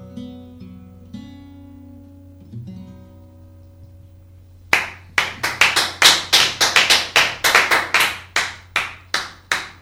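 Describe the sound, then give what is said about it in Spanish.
Applause in a studio follows a quiet stretch with low tones, then a burst of dense, sharp hand claps that stays loud and steady until the end, with no voices. “Aplausos generalizados a este lado de la mesa, al otro lado del estudio y seguramente al otro lado de los micrófonos”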